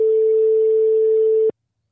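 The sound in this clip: Telephone ringing tone while placing a call: one steady, single-pitched beep of about a second and a half, loud and alone, then cut off into silence.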